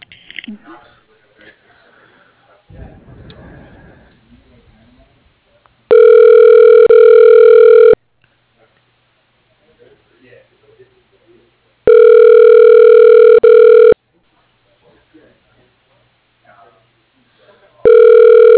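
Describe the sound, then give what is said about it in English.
An office telephone rings while a call is being transferred: steady electronic ring bursts of about two seconds each, separated by gaps of roughly four seconds, with faint handling noises in between. Two full rings are followed by the start of a third. “I'm not sure if he's in his office, but I'll transfer you.”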